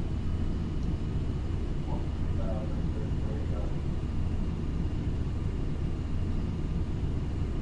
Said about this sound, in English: I have some Southwest flight recordings. I actually recorded the full flight. I don't, actually. And the cool thing was it was on a MAX 8. I don't record the full flight. I only record takeoff and landing.